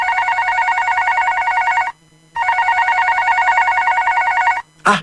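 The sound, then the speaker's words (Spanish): A telephone rings with a loud warbling electronic trill, sounding in long steady bursts separated by short pauses, with no talk. “Te están llamando.”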